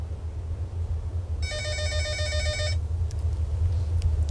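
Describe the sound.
An incoming call rings a telephone in a studio booth: a single burst of rapid electronic trilling lasting just over a second, set over a constant low rumble.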